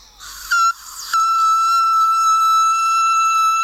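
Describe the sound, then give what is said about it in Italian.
A very high whistle-register voice, made with the vocal cords held parallel, gives a brief piercing note and then holds one thin, steady shrill tone for over two seconds. “E anche la voce con le corde parallele, quella acutissima, quella è difficile. I fischi con la il gola.”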